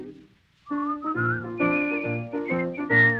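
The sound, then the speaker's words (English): A person whistling a bright melodic tune, clear high notes that shift in pitch from phrase to phrase, steady and moderately loud. “Maybe they'll whistle and you will”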